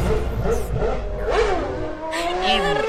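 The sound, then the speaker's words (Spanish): Formula 1 race car engines roar at full throttle, their whining pitch sweeping up and down as cars whoosh past in a few loud bursts over a continuous engine drone. “Semáforo en verde y acelerador a fondo, porque llega Fórmula Milangas.”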